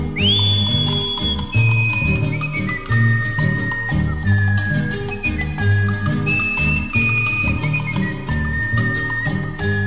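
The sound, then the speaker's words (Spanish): Human whistling carries a clear, high melody of sustained notes above a steady, rhythmic musical accompaniment, loud and continuous throughout. “Me distingue este chiflido porque no nací cantor.”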